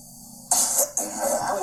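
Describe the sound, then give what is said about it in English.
Throat clearing as a comic callback: two rough, breathy bursts, a short one followed by a longer one that trails off, with no talking over them. “Call back to the throat clearing thing from before.”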